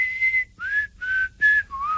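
Whistled melody from a famous pop song: about five clear, pure high notes, mostly held with smooth slides between them, loud over a faint low accompaniment.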